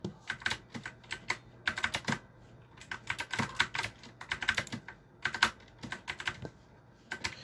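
Fingers type on a computer keyboard in quick, irregular bursts of many sharp clicks, separated by short pauses, with no talking.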